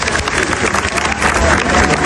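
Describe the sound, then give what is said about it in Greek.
An audience applauds at a Greek music event honoring a bouzouki player. The clapping is dense and loud, mixed with crowd noise, and swells slightly in the second half. “Θέλω να δώσω ένα χειριατό χειροκρότημα για τον Θανάση, τον Βασιλά”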